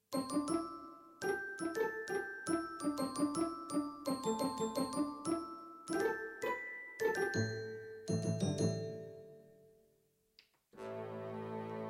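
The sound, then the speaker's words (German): Staccato glockenspiel voice on a Yamaha PSR-SX600 keyboard plays a quick melody of many short, bright bell-like notes, softly, then rings out with a few sustained tones before a brief pause and a different held tone. “Staccato mit Glockenspiel.”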